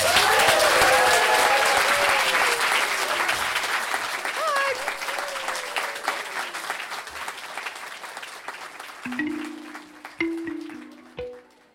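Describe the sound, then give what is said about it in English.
Applause from an audience at the close of a year-end storytelling gathering, a dense, loud wash of clapping that gradually thins and softens, with a few voices mixed in early on. “give yourselves and all the helpers a big round of applause.”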